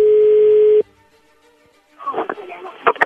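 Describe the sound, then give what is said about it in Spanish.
A steady telephone tone as an outgoing call connects, loud and unbroken for under a second before cutting off abruptly. Faint line hiss follows, then a voice begins speaking. “Ya entró la llamada ahí.”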